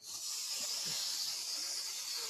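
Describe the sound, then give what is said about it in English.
Steam hissing out of roasted artichokes just pulled from the oven: a steady, high, airy hiss that stays even throughout, with no other sounds. “they were screaming. Oh no, I was, man, like, oh my goodness, these little, it's just the air pressure, you know, steam coming out of them.”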